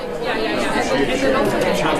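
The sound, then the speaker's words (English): Crowd chatter of journalists on a lunch break at a press club conference in Alaska in April: a dense, steady babble of many overlapping voices, none standing out. “Here's the sound of them on lunch break in April at Alaska Press Club Conference.”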